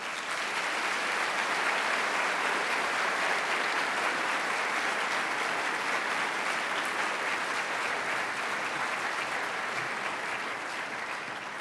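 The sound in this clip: An audience at a Freedom From Religion Foundation event applauds to welcome a speaker, with a steady, full wash of clapping that holds even and only eases slightly near the end.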